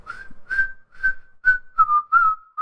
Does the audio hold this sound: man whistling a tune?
yes

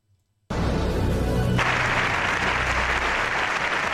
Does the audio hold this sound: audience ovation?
yes

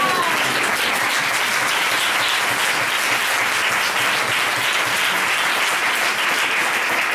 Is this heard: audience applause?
yes

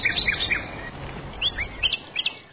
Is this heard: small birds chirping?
yes

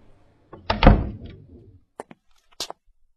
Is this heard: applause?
no

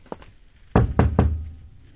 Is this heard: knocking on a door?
yes

